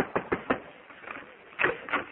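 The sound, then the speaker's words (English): Knocking on a door: three quick, evenly spaced raps, then after a quiet pause two more knocks, dull and muffled with a thin, narrow tone. “I'll knock on the door and see if you're ready to leave.”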